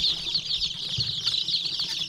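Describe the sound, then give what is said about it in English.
Baby chicks peeping in wooden crates, a few dozen per crate, at a feed store in small-town Vermont; many high, overlapping chirps form a continuous, fairly soft chorus with no pauses. “In the back of the store, next to a wall of maple sugaring supplies, are a line of wooden crates, each holding a few dozen baby chicks waiting to be picked out by customers.”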